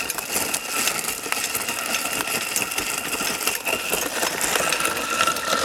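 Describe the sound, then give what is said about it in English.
Pumping machine processing coffee berries gives a steady, dense mechanical whir with a fine rattling texture, loud and unbroken throughout, with no voices. “The things come out green. Yeah. It's a pumping machine.”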